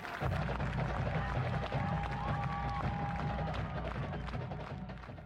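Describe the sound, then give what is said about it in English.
A stadium crowd at an Ohio University football game roars and cheers as the Marching 110's halftime show ends, a dense, steady roar with a thin sustained tone through the middle that eases slightly toward the end. “spectators roar as the performance ends. And as they march off the field, the stands clear as game-goers leave.”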